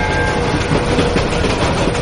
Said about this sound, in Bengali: সঙ্গে সঙ্গে চলন্ত ট্রেনের ফোঁস ফোঁস হড়হড় শব্দ।